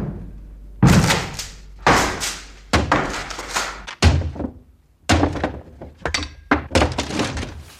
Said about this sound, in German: Wir klopften. Wir riefen. Und als keiner aufmachte, brachen wir die Tür auf.